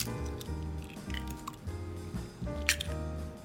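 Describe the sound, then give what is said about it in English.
An egg is cracked into a flour, baking powder and water slurry, giving a few faint, wet squishing and dripping sounds over a low, steady background. “Then after you have that, we will crack in 1 egg.”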